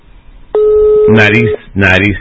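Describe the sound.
Telephone ringing for an incoming lottery call: a single electronic ring lasting about a second, with a voice starting over its tail and speaking again shortly after.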